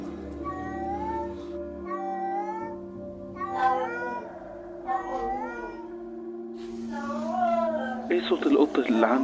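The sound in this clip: A black cat meowing, several drawn-out cries that waver up and down in pitch, fairly loud and clear, ending with a harsher, noisier burst.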